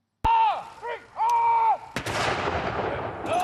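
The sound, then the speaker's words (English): Military guns fire a salute for the late Prince Philip, a few heavy, sharp booming reports spaced about a second apart, the last one trailing into a long rumbling wash of sound. “Across Britain, military guns fire a salute to the late Prince Philip a day after his death.”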